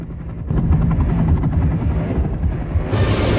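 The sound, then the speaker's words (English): A helicopter lands on a rooftop, its rotor giving a loud, steady thumping drone with a rapid pulsing beat that stays constant throughout, with no voices. “the detectives are running towards a helicopter that's landing on the roof.”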